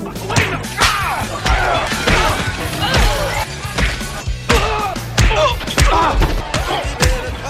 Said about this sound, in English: They recorded every punch to the face from Roadhouse.